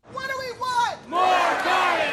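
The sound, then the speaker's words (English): Urban gardeners chant at a protest at City Hall: one voice shouts a call, then a loud crowd roars back its answer in unison. “That's the sound of urban gardeners protesting at City Hall.”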